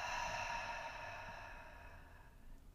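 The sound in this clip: A long, slow exhale through the mouth during a guided relaxation breathing exercise. The breath is soft and airy, fairly faint, and fades gradually over a couple of seconds.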